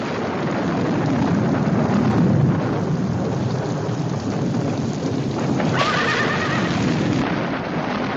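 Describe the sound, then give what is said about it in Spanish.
Horses whinny in a thunderstorm with heavy, unbroken rain and rumbling thunder. A higher neigh rises over the storm noise near the end. “ve a decir a los chicos que aseguren bien los caballos. Si los perdemos en la tormenta será muy difícil recuperarlos.”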